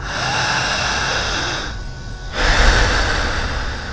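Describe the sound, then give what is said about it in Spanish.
Deep breathing through the mouth during a clinical hypnosis demonstration: a long, steady, breathy rush of air, a brief pause near the middle, then a louder, fuller breath. “respira muy profundo con la boca. ¿Qué más? Solamente con la boca.”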